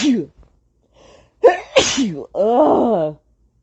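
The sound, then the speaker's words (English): A person sneezes. Brief breathy sounds build up to a loud, forceful burst, followed by a drawn-out voiced sound, with nothing else around it. “hold on, I'm about to sneeze.”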